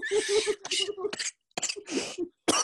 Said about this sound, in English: I'm sorry. This e-cig is a little rough on my throat.